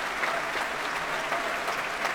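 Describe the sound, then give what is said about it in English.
Applause from an audience for the performers of a youth wind orchestra on stage: a steady, dense clatter of many hands, moderately quiet and unbroken. “Gavin Higgins himself making his way onto the stage and applauding the performers.”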